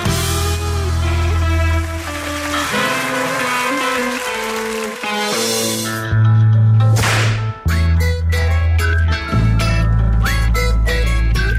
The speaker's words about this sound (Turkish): Nemden vur kırbacı, essin diyor, essin.